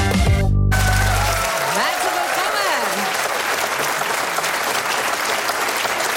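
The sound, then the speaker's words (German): Live audience applauding at the Live-Stage radio event, a dense, sustained roar of many hands clapping that stays steady and loud throughout. “Wir hören hier in der Live-Stage ganz viele Leute.”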